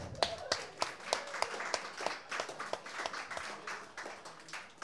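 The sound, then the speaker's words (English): Audience applause for a performer at a live show: a faint, steady patter of many hands clapping, with sharper individual claps standing out and no speech. “One more hand, please, for Ben Blum.”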